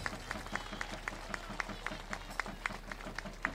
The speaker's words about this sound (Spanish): Fuerte el aplauso al cielo y apurando la visita de León.